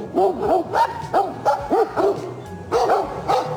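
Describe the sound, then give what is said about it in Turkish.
Stray dogs barking and yelping in a fight with bears in a national park, rapid repeated barks in quick irregular bursts, loud and agitated throughout. “Sokak köpekleri ve ayıların kavgası kameralara işte böyle yansıdı.”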